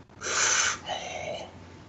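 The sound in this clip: Heavy breathing: two long, drawn-out breaths in a row, the first louder and harsher, the second softer and lower. No talk is heard.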